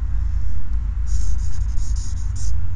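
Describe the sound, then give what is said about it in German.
A pen scratches out a left-handed signature in a guest book: a few short, scratchy strokes, fairly soft, over a steady low hum. “Bitte einmal unterschreiben.”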